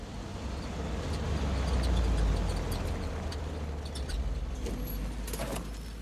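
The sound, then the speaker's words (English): Low, steady engine rumble of a Jeep driving along a residential road lined with palm trees, swelling slightly in the middle, with a few light rattles and clicks over the drone. “Jeep drives along a residential road lined with palm trees.”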